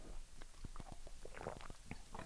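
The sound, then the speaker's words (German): Sips of water taken between sentences, heard as a run of soft, faint mouth clicks, gulps and swallowing noises at an uneven rhythm, with no talk. “Ich trinke immer zwischendurch ein bisschen Wasser, ne? Nicht, dass ihr euch wundert.”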